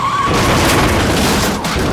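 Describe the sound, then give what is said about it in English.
A car with failed brakes wrecks at the end of a police chase, a loud, sustained roar of crashing and scraping noise that fills the whole two seconds. “He just wrecked.”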